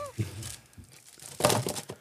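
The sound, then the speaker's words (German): A basket of South Tyrolean Schüttelbrot crispbread is shaken, giving dry, brittle crinkling and rattling in two bursts, the second longer and louder, with a voice heard briefly. “Südtiroler Schüttelbrot. Schüttel doch mal den Korb.”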